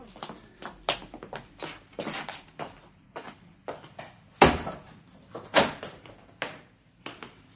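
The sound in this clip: A shop door being opened, heard as a string of many uneven knocks, clunks and rattles, with two louder bangs in the middle and no talking.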